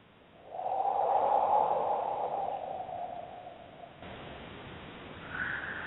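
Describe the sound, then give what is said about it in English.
During a guided breathing exercise, a person takes one slow, deep breath in. It is a long, airy hiss that swells quickly, holds, and fades over about three seconds, leaving faint, quieter breath noise. “Taking a deep breath, breathing in, filling the body with air”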